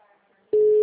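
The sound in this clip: Telephone busy signal, one loud, steady, unbroken tone that starts abruptly after near silence and continues to the end.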